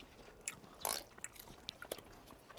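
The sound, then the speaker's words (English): A faint bite into hash browns topped with egg gives one short crunchy burst, surrounded by soft, scattered chewing clicks and smacks. “I want to try these hash browns with some egg on them. Mmm. Take a look at this bite, you ready?”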